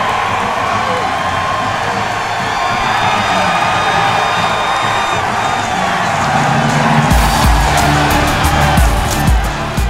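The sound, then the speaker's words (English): Thousands of Eagles fans cheer in the stadium at FedEx Field, a loud, dense, continuous crowd roar with shouts and whoops that swells near the end. “That sound you just heard? The thousands of Eagles fans who made their way south of Philadelphia to FedEx Field and cheered on the Eagles on Sunday.”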